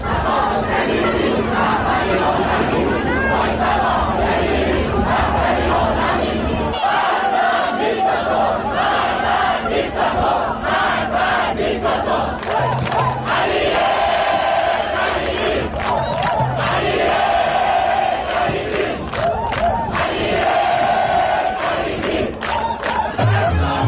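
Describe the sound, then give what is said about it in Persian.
Sports spectators in Dubai chant slogans together after a match. The massed voices are loud and rhythmic with repeated phrases and bursts of cheering, and they stay strong throughout. “تماشاگران هم بعد از مسابقه به جای شعارهای ورزشی در دبی اینجوری شعار دادن”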